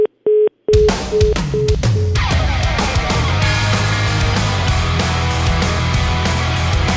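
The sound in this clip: Telephone dialing to call someone back: a brief burst of dial tones, then a few short, evenly spaced beeps at a steady pitch over loud music.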